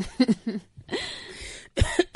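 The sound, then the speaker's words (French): Coughing brought on by incense smoke in a home: several harsh, throaty coughs in quick bursts, with one longer rasping cough in the middle, loud against near silence. “N'incrimine pas mon encens pour ta toux.”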